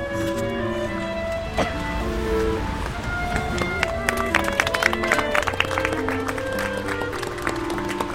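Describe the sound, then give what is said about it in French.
Broom scrubbing over wet, freshly laid golden memorial stones set in the pavement, scratchy bristle strokes in a busy rhythm over steady background music. “Il rajoute encore une fois de l'eau. Et là, il passe avec un balai sur les pierres dorées.”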